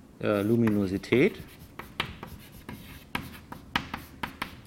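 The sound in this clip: Writing on a board during a physics lecture: short, scratchy strokes and light taps in irregular bursts follow a brief stretch of a man talking at the start.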